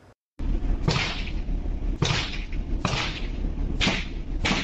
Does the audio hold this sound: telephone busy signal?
no